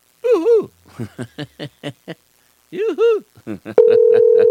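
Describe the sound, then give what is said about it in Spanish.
A telephone's ringback tone sounds on an outgoing call: a steady, loud, continuous tone that begins abruptly after several short bursts of people talking and holds to the end. “ver si tenemos este contacto telefónico, parece que no. Está timbrando.”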